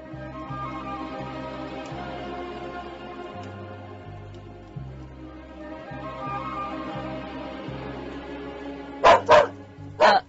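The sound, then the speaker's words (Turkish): A dog barks at home at dusk in a radio play. Two sharp, loud barks come in quick succession near the end, cutting through a steady low musical bed. “Niye havlıyorsun oğlum? Sana niçin havladığını sordum.”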